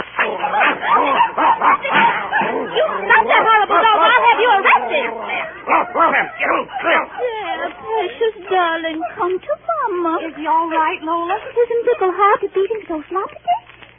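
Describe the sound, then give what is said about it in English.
A small, ugly-looking dog barks and yips in excited bursts, with the odd whimper. Voices talk through most of the scene. “Holy, you better not let Floppet near that awful-looking dog. Oh, that little dog better not mix with old man Clam. Doggy, must belong to Tommy Laundryman.”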